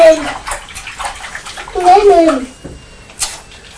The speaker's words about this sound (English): Just let Mummy wash her hands.